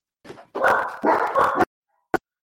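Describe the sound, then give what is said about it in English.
Dogs bark in a few rough, harsh bursts. A short faint yelp comes first, then two longer, louder barking flurries, followed by silence and a tiny click. “Them goddamn dogs.”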